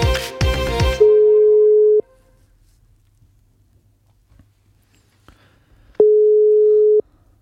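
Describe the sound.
A telephone ringback tone plays while waiting for someone to answer: two steady, mid-pitched one-second tones about four seconds apart, with near silence between them, after a brief burst of louder sound at the start.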